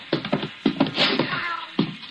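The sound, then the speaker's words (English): A black cat gives several short meows in quick, uneven succession, loud and alone, with one longer call near the middle. “Up you come, you black banshee.”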